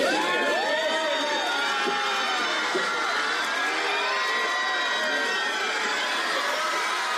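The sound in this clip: Crowd cheering and shrieking for Brad Pitt on his arrival outside the Hotel Maria Cristina in San Sebastián; many high, shrill screams and whoops overlap in a loud, continuous roar that holds steady throughout.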